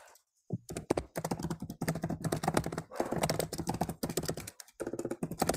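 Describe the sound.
Fingers type on a computer keyboard in quick, uneven bursts of clicks with a few short pauses, fairly quiet and with no voices over it.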